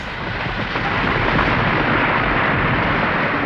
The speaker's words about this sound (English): Oh, another building is falling.